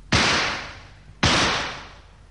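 Two loud signal shots from a rifle, fired about a second apart, each a sharp crack followed by a long fading tail, with no voices.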